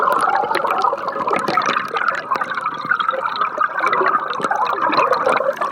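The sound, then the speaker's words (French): Underwater sound picked up by a hydrophone placed in water: a dense, continuous wash of bubbling and trickling, dotted with many sharp clicks and drips, at a steady, fairly loud level throughout with no voices. “L'hydrophone, c'est assez amusant. Il permet d'enregistrer des sons aqueux. On peut le mettre dans l'eau et entendre ce qui se passe.”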